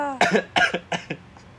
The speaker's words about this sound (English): I don't know why I keep coughing